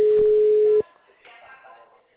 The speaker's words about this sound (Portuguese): Mano, eu tô só ligando, ninguém tá atendendo não.